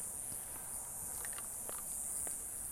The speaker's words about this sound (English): And we're walking, and it's hot. I haven't seen anybody else walking yet